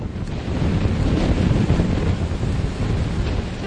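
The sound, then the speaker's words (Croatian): Strong wind and sea rush around an old, heavily loaded cargo ship pushing about 14 knots at dusk. The roar is continuous and loud, with gusty fluctuations, and no voices. “Vanka je vedro, s već zagasitim plavetnilom sumraka. Vjetar je priličan.”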